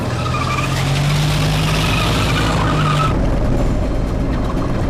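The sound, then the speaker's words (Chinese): A car speeds off with its tires skidding. A loud, sustained squeal rides over the engine for about three seconds, then gives way to steady roaring road noise. “是，快点开车。”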